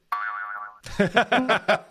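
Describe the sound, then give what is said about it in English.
A cartoon boing sound effect used for a boner gag: a wobbling, springy tone, then a quick run of bouncing boings in a steady rhythm. “We went 6 years without a boner sound effect on this show, and now that is no more.”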